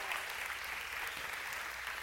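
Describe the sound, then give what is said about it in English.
A church audience claps steadily for the fathers standing up during a service. The clapping is fairly soft and even, without voices. “And yeah, now clap again for them. There's not enough clapping for dads.”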